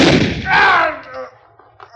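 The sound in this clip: A gunshot rings out in a radio drama shootout: a sharp, loud blast at the very start, followed by quieter sounds and voices.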